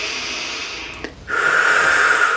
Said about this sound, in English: Now allowing it completely in front of you. Deep breath again.